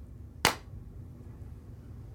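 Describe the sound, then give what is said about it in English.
A single sharp hand clap, one crisp burst early on, standing alone over a faint low hum with no voices. “Oh, wait, I'm gonna hit a little clap action.”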